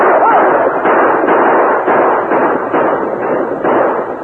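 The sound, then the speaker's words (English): Gunfire from riders' blazing guns during a western radio drama battle: a loud, dense, continuous roar of shots with a steady pulsing of repeated bursts, muffled and thin in tone. “Then the point riders and the Indians rode with blazing guns to face the Corey gang.”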